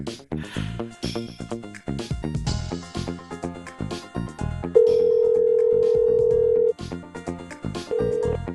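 A steady telephone ringback tone sounds while a call is placed. One long tone of about two seconds plays, then another begins, over busy background music.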